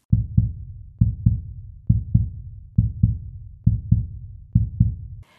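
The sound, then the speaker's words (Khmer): Heartbeat of a Chinese astronaut candidate awaiting a selection decision: six deep, steady lub-dub double thumps in an even rhythm, low and muffled, with nothing else heard. “ទាំងឈីមីងអាចដឹងច្បាស់ពីចង្វាក់បេះដូងរបស់គាត់រួចទៅហើយហាក់ដូចជាគាត់អាចឮសំឡេងឈាមហូរតាមត្រចៀក”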